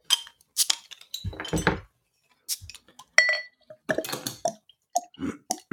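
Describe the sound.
A brown glass bottle clinks and rattles as it is handled and opened, giving a few sharp, bright chinks separated by short pauses.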